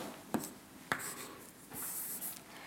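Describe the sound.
Faint writing strokes on a board during a lecture: a few sharp scratchy taps over a low steady hiss, with no talking.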